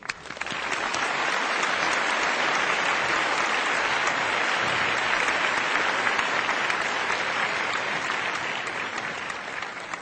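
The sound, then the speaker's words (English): Warm audience applause welcomes a speaker to a talk on climate change and disaster prevention: dense, steady clapping that stays loud and even for the full ten seconds, with no voices above it. “We welcome him with a warm applause.”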